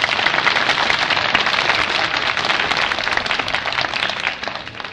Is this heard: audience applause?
yes